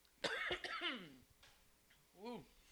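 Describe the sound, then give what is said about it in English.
Someone clears their throat mid-conversation: a short, raspy burst, then a few strained voiced grunts, and another brief throaty rasp near the end, all fairly quiet. “That pause there was me clearing my throat again.”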